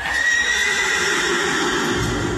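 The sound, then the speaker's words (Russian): A horse whinnying, a long, high, quavering neigh held over a steady background hiss. “раз бургомистр не может выйти посмотреть на лошадь, лошадь сама придет к бургомистру.”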